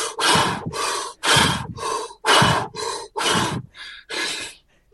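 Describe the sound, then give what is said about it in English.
Rapid, deep breathing: a fast series of about nine strong, breathy bursts of air in and out, loud and evenly rhythmic with short gaps between them, and no talking. “I want you to do 15 really deep breaths as fast as you possibly can right now.”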